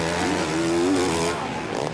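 Motocross bike engines roar during a 2013 pro race at Millville, a loud, continuous drone with a slightly wavering pitch that holds throughout.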